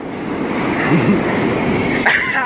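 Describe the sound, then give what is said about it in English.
A subway train of R42 cars on the J line pulls into the station with a loud, steady rumble that runs throughout, and a brief high metallic squeal rises near the end. “The 42! The 42 is here. R42 J train.”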